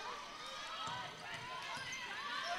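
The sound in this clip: A basketball is dribbled during a girls' high school basketball game: a few soft, low bounces thud under a commentator's steady play-by-play voice.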